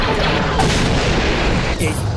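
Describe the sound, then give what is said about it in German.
Weapon fire slamming into a cruiser: a loud, dense booming blast and rumble that fills the whole moment without a break. “Ich bin getroffen. Aber die Schäden halten sich in Grenzen. Sie haben auf uns geschossen.”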